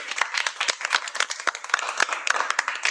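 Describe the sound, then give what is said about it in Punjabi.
Hearty audience applause: many overlapping handclaps form a dense, crackling wash that holds steady and fairly loud from start to finish, with no pause or voices standing out. “जोरदार ताड़ियां भाई”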